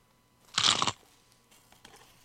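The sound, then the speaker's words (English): A single loud, crunchy bite into a traditional glazed Dunkin' Donuts donut with a crisp glaze, followed by a few faint, softer chewing sounds. “First up, we have the traditional glazed donut.”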